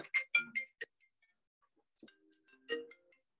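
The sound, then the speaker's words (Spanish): Phone ringtone for an incoming call: a quick run of bright melodic beeps, then a near-silent pause, then a few more tones. The whole thing is faint. “Me llegó una llamada.”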